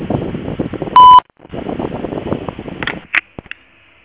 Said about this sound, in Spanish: Si desea, deje su mensaje en la casilla de voz. Después del tono, deje su mensaje.